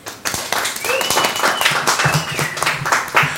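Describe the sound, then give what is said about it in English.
Audience applause welcomes the next performer at Club Emmaus: loose, uneven clapping with sharp individual claps standing out, holding at a fairly loud level throughout. “Please welcome your next performer to Club Emmaus.”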